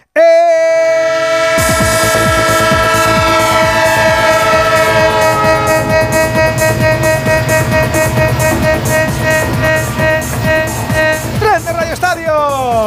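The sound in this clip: Train sound effect: sustained horn-like tones open it, then a loud, steady rolling train rumble with rhythmic rail clatter runs to the end.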